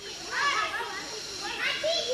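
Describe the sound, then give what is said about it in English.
Children play on exercise equipment in a city park during the Olympics, their high-pitched chatter and shouts rising and falling over a steady background hiss. “Kids playing on exercise equipment while their grandparents look on, a couple of people doing Tai Chi under sprawling trees to the hum of cicadas.”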